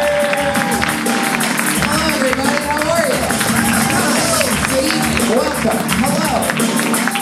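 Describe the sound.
Applause and cheering from a comedy audience in the Comedy Store main room as the show host is welcomed, a dense, steady roar of clapping with shouts and whoops running the whole way through.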